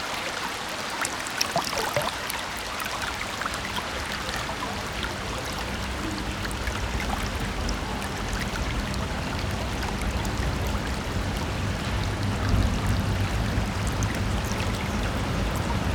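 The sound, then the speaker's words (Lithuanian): Flowing river water rushing steadily as one continuous, dense wash with faint splashing and trickling detail, holding an even level throughout with no voices. “Ar girdite, koks skaidrus ir traškus upės garsas? Vien šiuo garsu galite numalšinti troškulį.”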